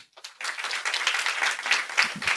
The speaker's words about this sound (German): Das ist so ein richtiger Sonntagsapplaus.